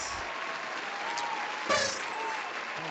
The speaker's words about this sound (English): Can you hear the clapping?